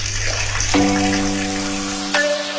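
A water tap left running pours and overflows in a steady, fairly loud gush that continues unbroken from start to finish.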